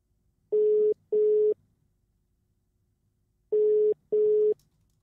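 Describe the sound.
A telephone tone sounds while a call is being attempted: four short, steady, mid-pitched beeps in two pairs, with a long silent pause between the pairs. The tones are fairly faint and there is no talk.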